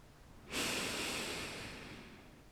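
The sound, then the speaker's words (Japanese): Breath drawn in through the nose during a guided meditation: one long, soft nasal inhale that begins about half a second in, holds steady, then slowly tapers off. “もう一度、鼻から吸います。”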